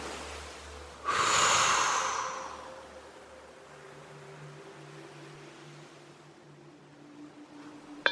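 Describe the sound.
A single forceful, toned exhale after a muscle stretch: a loud, breathy rush of air that fades over about a second and a half. Quiet follows, with a faint low steady hum.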